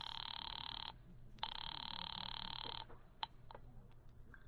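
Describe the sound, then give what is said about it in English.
A telephone rings twice, two loud, steady electric rings separated by a short pause, the second ring longer than the first, followed by a few faint clicks. “Ringing Murray Hill 40098. Two ringy dingies.”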